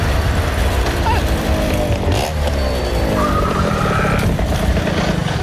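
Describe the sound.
A motor vehicle engine with a troublesome carburettor accelerates as it arrives, its loud, rough whine climbing in pitch partway through, while voices talk over it.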